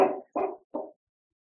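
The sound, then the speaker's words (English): A sleeping dog whimpers and gives soft, muffled barks while dreaming: three short, rounded woofs spaced evenly apart, each quieter and briefer than the last, followed by silence. “Is your dog dreaming? Yeah. she's twitching, and she's she's agreeing with me.”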